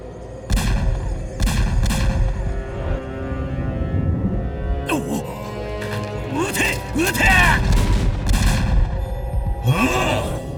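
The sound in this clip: Gunfire follows a command to shoot: a few sharp bangs at first, then a busier stretch of blasts mixed with swooping tones, with voices present.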